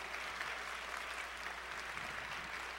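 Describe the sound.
A church audience applauds to welcome its missions team. The clapping is a steady, even wash of many hands that holds at one level throughout, with no speech over it.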